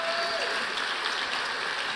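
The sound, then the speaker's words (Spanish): Congregation applause during a church service: dense, steady clapping that fills the whole stretch at an even level, without pauses or distinct individual claps. “Ahora sí, dale un aplauso al Señor.”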